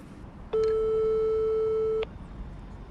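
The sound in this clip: A telephone line tone plays while a call is placed. It is a single steady mid-pitched beep lasting about a second and a half, constant in pitch and loudness, over faint background hiss.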